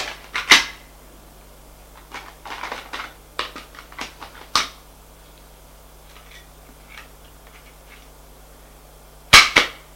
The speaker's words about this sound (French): Charge la carabine de 2 balles.